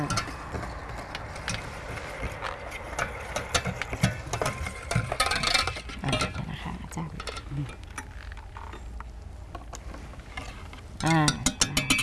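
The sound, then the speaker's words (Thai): An electric bakery mixer beats dough with a steady mechanical whir and gear-like ticking rattle under talk, growing a little louder near the end. “แล้วก็ช่วงแรกเราก็จะคนก่อนนะคะแล้วก็จะใช้เครื่องตีนะคะเบเกอรี่นะคะช่วยในการตีนะคะ”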